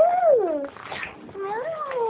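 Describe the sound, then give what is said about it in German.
A cat meowing in two calls: the first swells and then slides down in pitch, and after a short pause a longer, lower meow follows. Both sound slightly muffled and thin. “Die Katze.”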